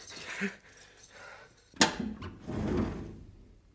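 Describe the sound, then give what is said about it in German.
A filing cabinet being opened in an office scene from a dramatized David Copperfield: a sharp latch click, then a soft sliding rumble as the drawer moves, all fairly faint. “Er öffnet seinen Aktenschrank, um nachzusehen.”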